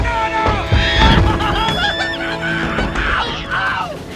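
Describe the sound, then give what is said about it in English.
Harsh, goose-like honking squawks of an exotic bird attacking come in a loud, continuous flurry of raspy calls with no pause between them. “Hank aims at the bird. The bird attacks.”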